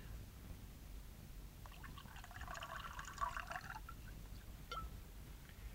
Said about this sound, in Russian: Стопочку налей ко мне.